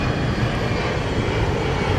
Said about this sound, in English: Okay, here I am. On top of a fucking aeroplane.